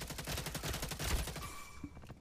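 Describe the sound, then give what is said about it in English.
Rapid gunfire from a hipfire gun in a video game: a dense, loud burst of many quick shots in steady succession that thins out near the end. “Where's my gun? Oh where's trouble? Oh, tonight? That is a hipfire gun.”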